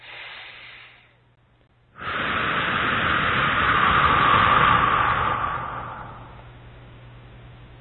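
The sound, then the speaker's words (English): A deep breath taken during a guided meditation: a short airy breath, a brief pause, then a long, loud, hissing breath that holds steady for several seconds before tapering off softly. “Okay, nice deep breath.”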